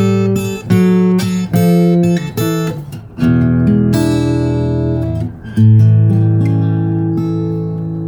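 A fingerpicked blues guitar plays a rundown: loud, quick plucked notes in succession, then fuller ringing notes that sustain and slowly fade.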